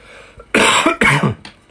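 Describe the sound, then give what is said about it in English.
Two harsh, loud coughs from a person who has been coughing repeatedly, each a broad, rough burst in quick succession, followed by a faint short tail and no talk. “excuse me, guys. I'm really sorry about all the interruptions. I've been coughing a lot.”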